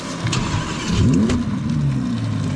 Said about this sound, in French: Souffle rauque dès le démarrage, le V10 Atmo ne demande qu'à s'époumoner.